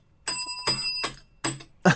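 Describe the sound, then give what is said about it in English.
A bell rung to mark a pick of the week strikes five times at roughly even intervals. Each ring is short and bright, and the later strikes sound duller and buzzier, as if the bell works poorly. “The bell ain't working too well tonight, but it is one of my picks of the week.”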